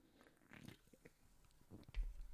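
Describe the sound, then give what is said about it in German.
Faint mouth sounds of someone taking a sip of Paulaner Spezi soft drink: a few soft wet slurps and a swallow, quiet and alone, with a slightly louder gulp near the end. “Ich nehme mal ganz kurz einen Schluck von meiner Paulaner Spezi.”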